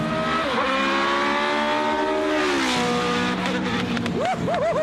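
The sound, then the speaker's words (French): A Formula 1 car's V8 engine revs with a high, steady whine. Its pitch falls partway through, then quick rising and falling blips close the run. “est-ce que vous l'avez entendu un peu miauler le V8 hein?”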